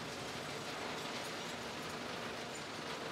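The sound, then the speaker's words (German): A recycling drum machine separating metals such as copper and zinc gives off a loud, continuous rumbling roar with a dense mechanical rattle, steady and unbroken throughout. “Metalle wie Kupfer und Zink werden abgetrennt. Doch plötzlich kommt nur noch sehr wenig Material durch die Trommel.”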